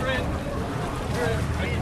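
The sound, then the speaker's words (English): A ferry to Ashford Castle arrives and struggles to dock as the wind rises: a continuous low engine rumble mixed with blustery wind noise, steady and fairly loud throughout. “Finally, the ferry home to Ashford Castle has arrived. The wind is lifting and he's having trouble docking.”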